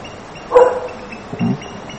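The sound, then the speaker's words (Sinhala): A dog barks outside twice: first a sharper, louder bark, then a lower, softer one a moment later. “කොහෙද ඒ බල්ලා ඉන්නේ? එළියේ ඉන්න බල්ලා හැදුවේ කවුද?”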